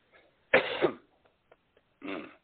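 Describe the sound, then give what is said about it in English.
Coughing and throat clearing after a drink went down the wrong pipe: a loud, rough burst of two quick coughs, a pause with faint catches of breath, then one more throaty cough. “excuse me, had drunk something, went down the wrong pipe.”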